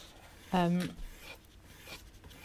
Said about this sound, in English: I've actually decided to draw you from the side